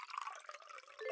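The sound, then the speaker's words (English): Gin poured haphazardly into a tumbler: a quiet, brief trickle and splash of liquid lasting about a second, with no voices. “that's the sound of gin being poured haphazardly into the tumbler of someone who, by the sound of it, has a drinking problem.”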